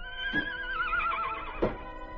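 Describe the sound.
A saddled horse neighs, one long, high, wavering whinny whose pitch drifts slowly downward, with no voices.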